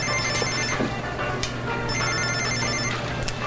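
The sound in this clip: A cell phone rings as it is pulled from a pocket. A high, repeating electronic ring comes in two short bursts over a steady low hum.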